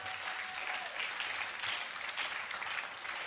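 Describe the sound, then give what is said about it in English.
An audience claps their hands in steady, dense applause that stays even and unbroken throughout, with no voices standing out. “Oh, clap your hands,”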